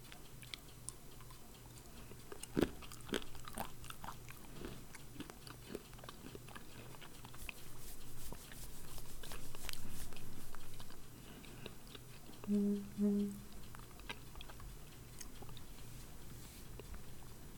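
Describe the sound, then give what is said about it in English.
Cashews being chewed, with many soft, irregular bites and crunches spread across a quiet stretch. A faint ticking runs underneath. “I'm eating cashews. They taste great.”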